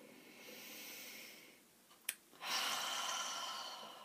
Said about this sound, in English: And then take a deeper breath in and let go of any tension on the out breath. Taking a deeper breath now.